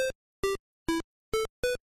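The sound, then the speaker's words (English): Square-wave chiptune from the Super Mario Bros. theme on the NES, played on one square channel alone: five short, bright, buzzy bleeps separated by silent gaps. “So a better example of this would be to take a song that everyone knows, like the Mario theme, and just play the square channel.”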